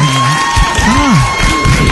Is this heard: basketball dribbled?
no